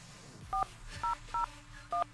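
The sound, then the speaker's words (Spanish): Telephone dialing tones as a number is keyed: four short, clear touch-tone beeps at uneven intervals, each with a slightly different pitch, played fairly quietly over a low background hum. “A ver. Vamos a llamarle.”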